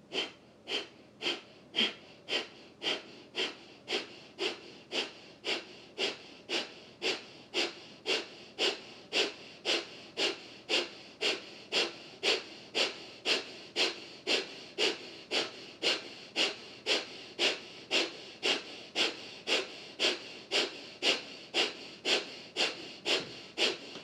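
Kapalabhati rapid forceful yoga breathing: many sharp, evenly spaced breathy exhalations in a brisk, steady rhythm, nearly two per second, with no talking.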